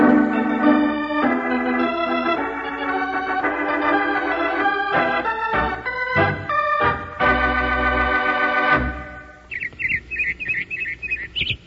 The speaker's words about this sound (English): That's a robin singing.